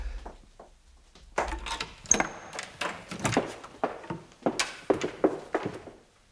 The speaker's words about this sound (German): du reißt die Tür auf und versteckst dich hinter ihr